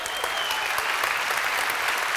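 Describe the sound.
An audience applauds the musicians after a performance, a steady, dense clapping of many hands that continues evenly throughout.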